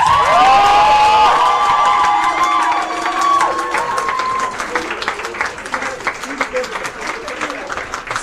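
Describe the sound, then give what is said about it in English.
A crowd applauds and cheers: high whoops and shouts ring over dense clapping at first, then the noise thins into scattered, uneven claps. “a round of applause to thank them for their hard work”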